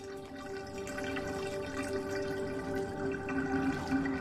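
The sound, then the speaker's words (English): Water draining out of a bathtub after the plug is pulled, a steady rushing gurgle that holds an even loudness throughout, with no voices. “pulls out the drain plug and walks away.”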